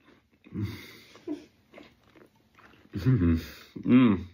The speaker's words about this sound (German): Probiere ich mir hier mein tolles Haferporridge mit ein bisschen Apfel.